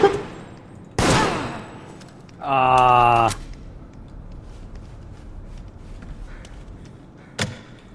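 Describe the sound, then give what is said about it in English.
Gunfire rings out in a multiplayer shooter video game. A sharp shot comes first, then a longer rapid-fire burst, and another single crack follows after a quiet gap. “I just keep getting shot from everyone.”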